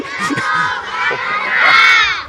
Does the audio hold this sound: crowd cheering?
yes